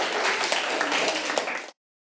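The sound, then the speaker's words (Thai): Children in a class clap for their classmates: a dense patter of many overlapping handclaps at moderate loudness. It continues evenly for under two seconds and then stops abruptly. “ปรบมือให้เพื่อนครับเด็กๆ”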